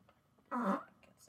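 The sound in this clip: A single short fart, a buzzy, low burst lasting about a quarter of a second, rises out of a faint background murmur and quickly fades.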